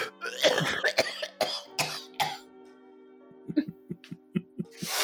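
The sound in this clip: A person gags and coughs hard, nearly vomiting, with a cluster of loud, rasping coughs and retches up front, a brief lull, then a run of short, rhythmic gagging heaves.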